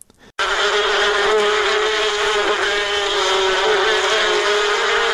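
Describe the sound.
Honeybees buzzing at a bee farm in Kunduz: a dense, steady, high drone that begins abruptly after a brief quiet moment and holds unbroken at a loud, even level throughout.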